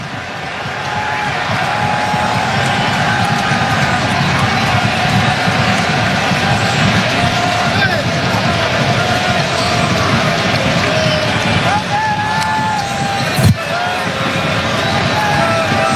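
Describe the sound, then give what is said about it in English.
A single sharp thud as a France footballer kicks a pitchside field microphone out of his way before a corner kick at a World Cup match, heard near the end over a steady roar of stadium crowd noise. “Dembele wanted the short option, and then he got annoyed with the field microphone, kicks it out of his way.”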